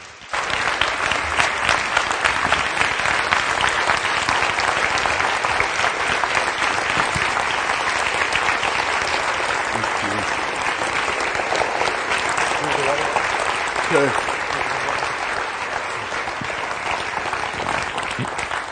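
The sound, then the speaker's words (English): An audience gives long, loud, steady applause to welcome a guest speaker, a dense crowd clapping without pause for the whole stretch. “And to welcome him, would you please give a huge hand to Chris Simning, our guest speaker for the weekend.”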